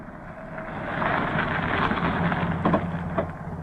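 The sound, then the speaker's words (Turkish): A taxi pulls up, heard as a steady engine rumble that swells slightly louder, with a few short knocks near the end. “Hay Allah, hemen bir taksi bulsam bari. Ha işte, taksi.”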